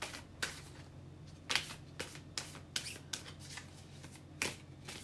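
Tarot cards being shuffled and drawn: a series of quick, papery riffles and flicks in irregular bursts, moderately loud, with no talk.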